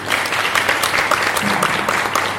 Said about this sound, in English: I think a round of applause.